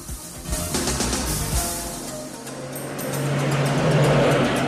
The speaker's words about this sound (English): The doctor reaches the hospital doors in time to see Andrea pulling out of the parking lot and activating the car's roof. He lifts his gun, but it's too late. They've got away.